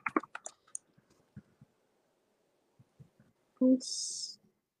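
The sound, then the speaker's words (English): Sparse clicks of typing on a computer keyboard come in short clusters separated by pauses, then a brief louder burst of hiss near the end. “I'll go ahead and I'll type that into the comments right here.”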